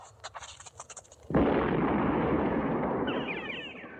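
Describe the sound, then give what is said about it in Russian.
A single loud explosion bursts in a field after a few faint ticks, then a broad, rumbling roar holds and slowly fades. “После взрыва над полем поднялся столб дыма.”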